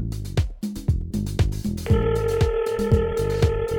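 A telephone rings as a caller comes through on a radio call-in show about cooking, with repeated rhythmic ring pulses and a steady tone joining partway through.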